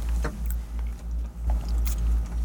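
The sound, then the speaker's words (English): Chewing on a bite of croissant, with soft, moist crunching and mouth noises repeating in an uneven rhythm over a low, steady background rumble. “I'll take another bite of our croissant here.”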